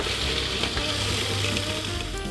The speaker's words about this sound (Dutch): Ik heb een heel klein keukenmachientje, dat is heel fijn. Ik zou het anders, alle kruiden heel fijn hakken, noot heel fijn hakken en boter iets smelten en dan het er doorheen voeren. Ik maal dit alvast even.